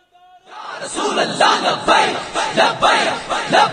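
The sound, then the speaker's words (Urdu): A crowd at a religious gathering chants a slogan together. After a brief quiet start, loud massed voices rise in a series of rhythmic, repeated bursts. “ایک بار سارے نعرہ بلند کریں.”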